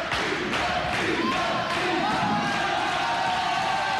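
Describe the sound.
A live audience cheers and shouts in a steady, loud wash of crowd noise with no music playing.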